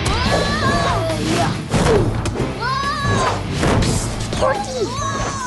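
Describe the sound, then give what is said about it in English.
A wrestler is picked up and slammed onto the ring canvas during a children's staged wrestling match, giving heavy thuds and crashes amid excited, shouting voices. “Butch throws him down. Butch picks Alfalfa up and slams him onto the canvas.”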